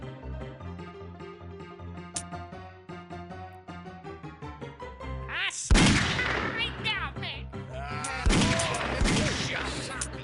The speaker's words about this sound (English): He shot me. Had to meet you. Shot me. I see him. He got me. He shot me.